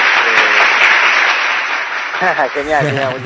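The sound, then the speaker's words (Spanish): Audience applause after a song played on a slightly out-of-tune guitar: dense, steady, loud clapping, with a voice starting to speak over it near the end. “Aplauso.”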